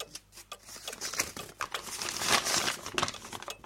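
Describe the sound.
A paper letter handled with continuous crinkling and rustling, many small crackles and flicks rising and falling in loudness.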